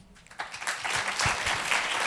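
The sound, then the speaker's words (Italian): Applause at a talk swells from quiet within the first moments into dense, steady clapping from many hands that continues to the end. “L'applauso e il ringraziamento che porgo a Federico Faloppa”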